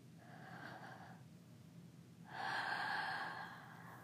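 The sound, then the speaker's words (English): A deep breath drawn in through the mouth, heard as airy, rushing noise. A fainter breath comes first, then a longer and louder inhale swells and fades away, with no talking. “Now take a deep breath in.”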